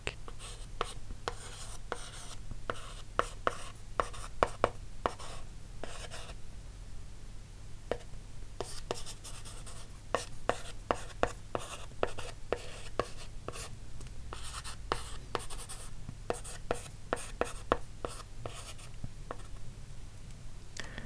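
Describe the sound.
Pen writing on paper: many quick, scratchy strokes in irregular bursts with short pauses, over a steady low hum, with no talk.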